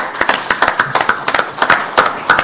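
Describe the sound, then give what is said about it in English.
Applause for scholarship winners at an American Soybean Association award presentation, many crisp, irregular claps from a small group of hands, fairly loud and continuing throughout. “So I'd just like to give a round of applause to them.”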